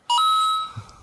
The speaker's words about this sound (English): Oh, is that what that sound is? Yeah, that's when Mario gets a coin.